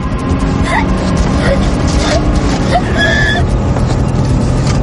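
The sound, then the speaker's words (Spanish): Steady, dense rumble of a car's engine and road noise as it speeds up to 120 km/h, loud and unbroken throughout. “Acelera. La velocidad sube hasta los 120 kilómetros por hora.”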